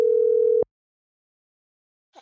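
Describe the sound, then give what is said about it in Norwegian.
A telephone ringback tone sounds as a caller dials a radio prize winner. One steady, mid-pitched tone lasts about half a second, then cuts off into silence, followed by a brief faint sound near the end. “på tide å ringe opp ukas vinner av tusenlappen.”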